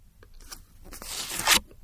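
Tarot cards are picked from a pile and stacked one on top of another face down, giving soft papery scrapes and rustles that build to a louder brushing swish near the end.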